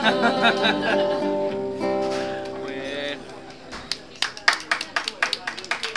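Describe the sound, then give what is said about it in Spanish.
Audience clapping at a live payada, an improvised sung verse contest: sustained sung or played tones fill the first half, then a run of many sharp, fairly evenly spaced claps takes over to the end. “Gracias por esos aplausos.”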